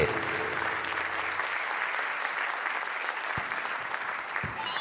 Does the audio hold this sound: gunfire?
no